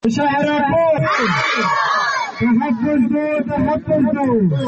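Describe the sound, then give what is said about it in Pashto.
Protesters, including schoolchildren and students, chant slogans in unison against the failure to arrest killers. Loud, rhythmic shouted voices rise and fall together in repeated phrases, with crowd noise filling the gaps. “دا نارې په بشرو کې ماشومان زده کوونکي تر اوسه وژل شوي د دوو کسانو قاتلان د ننیولو خلاف وهي”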